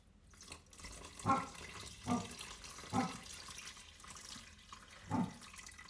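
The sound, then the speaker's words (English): Stock pouring into a cooking pot, a faint watery trickle with a few louder splashing surges, no talk. “And then I'm going to add the stock. There we go.”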